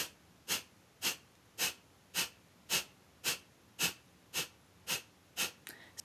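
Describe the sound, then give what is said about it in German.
Ten sharp, evenly spaced bursts of air forced out through the nose with the mouth closed, as in an energizing breathing exercise. The hissy puffs follow a quick, steady rhythm, with a softer rustle at the end. “da tust du durch die Nase tief einatmen und dann stoßweise durch die Nase aus.”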